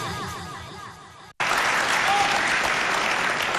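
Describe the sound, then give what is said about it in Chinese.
An audience applauds to welcome crosstalk comedians onto the stage: after a brief break, loud, dense clapping bursts in and continues evenly to the end. “观众啊，对演员鼓掌欢迎，哎，我们上台鞠躬”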